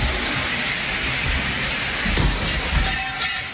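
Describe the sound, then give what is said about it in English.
A living-room fire sprinkler sprays water after a falling pole knocked it, flooding the room; the spray is a loud, continuous hiss that stays steady throughout. “That is the sound of her living room pole. The top slipped off the ceiling, hit a fire sprinkler, and flooded the room.”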